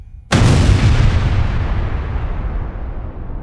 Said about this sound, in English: 20 minutes after the collision with the SS Emo, at 9:04 a.m., the explosives aboard the SS Mont Blanc detonated.